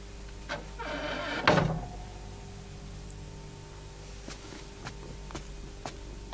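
A door being shut indoors: a faint scraping swish builds to a dull thud, followed by a few soft, scattered clicks in otherwise quiet surroundings.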